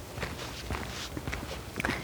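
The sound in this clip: Footsteps of a person walking slowly, a steady series of soft, regular steps at moderate loudness with no talking.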